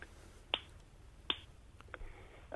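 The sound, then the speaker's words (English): A person makes sharp tongue clicks of the kind used for human echolocation, fairly quiet and separated by short pauses. The clicks are very brief and crisp, like finger snaps, with a couple of clearer ones and some fainter ones. “It's a click sound, similar to what you'd hear bats and dolphins using, except that it's, of course, within the human audible spectrum. It's a tongue click.”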